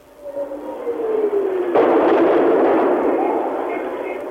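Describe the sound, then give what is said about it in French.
Artillery shelling during the Khmer Rouge assault on Phnom Penh in 1975: an incoming shell whistles and falls steadily in pitch, then a loud blast breaks out into a long, dense rumbling roar that slowly fades. “Elles ont raison, de nouvelles explosions font trembler les murs.”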